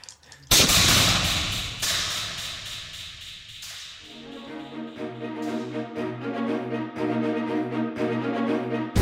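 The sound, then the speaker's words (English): Gunfire in a shooting drill where guns are fired and reloaded: a sharp, loud crack followed by a few more heavy bursts. A rhythmic, pulsing tonal layer then continues underneath. “Now load your guns. Now you will continuously fire and reload until you have hit 5 shots in a row.”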